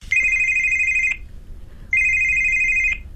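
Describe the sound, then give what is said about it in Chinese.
A mobile phone ringtone sounds in two sustained electronic ring bursts, bright and high-pitched, separated by a brief quiet pause, with no voices. “乔丽娜刚走出李希涛的家门，她的手机就响”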